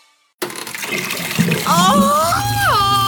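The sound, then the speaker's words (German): Water rushing and splashing from an overflowing sink and toilet. It starts abruptly after a moment of silence and stays loud and continuous to the end. “Waschbecken, Toilette, alles voll bis oben hin.”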